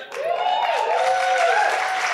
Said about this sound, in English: Applause for running. Applause for doubling the Greens vote in the course of that.